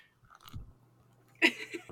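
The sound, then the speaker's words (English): Paper pages of a manga being turned, a crisp rustle that bursts sharply near the end and trails off in a few softer crinkles, faint and alone. “you're getting the ASMR version of the paper turning”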